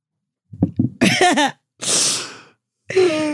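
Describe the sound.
A single sneeze: short catching breaths build into a voiced rise, then a loud, broad, noisy burst, with a brief voiced sound trailing after.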